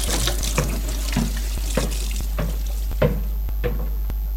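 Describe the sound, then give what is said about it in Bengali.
Water runs from a tap into a sink during dishwashing, a steady flow with intermittent splashy accents over a constant low hum. “বাসনগুলি ধুয়ে ফেললেই আর খুব একটা কাজ নেই মা।”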